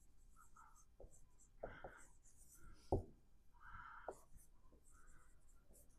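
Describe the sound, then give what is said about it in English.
Marker or chalk writing on a board during a classroom lecture on banking: a few short, scratchy strokes, faint and dry, with no talking. “Well, let me write commercial banks here.”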